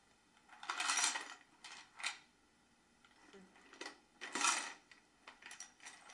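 Plastic mechanism of a toy garbage truck being pressed, giving a few soft rattling, clattering bursts separated by short pauses, faint throughout.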